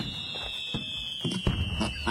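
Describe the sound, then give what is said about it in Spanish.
Fireworks sound effect for a festive Mexican town celebration: a thin, high whistle slides slowly downward while several crackling pops burst beneath it at uneven intervals. “Una, ¿cómo se llama? Fuegos artificiales y todo el rollo”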